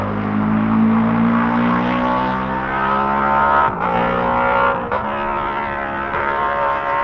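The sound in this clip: A racing motorcycle roars at high revs on a road course near Governor's Bridge. Its loud, steady, harmonic engine note drops in pitch briefly twice, as if shifting gears.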